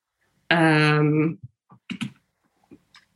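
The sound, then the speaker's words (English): A few sparse, light clicks on a computer keyboard as a name is typed into a search. A brief sustained voice comes just before the keystrokes, which are spread unevenly over about two seconds. “I want you to open Google and type in your aunt's full name right now.”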